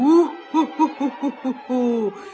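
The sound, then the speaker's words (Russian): A human voice imitates the hooting call of a black-eyed forest owl: one long hoot, a quick run of five short, bouncing hoots, then a longer, drawn-out final hoot, all loud and clear. “У-ху-ху-ху-ху-ху! Разгоню, распылю! Это кричит черноглазая лесная сова, названная именем сказочной, ненасытной птицы Неясыти.”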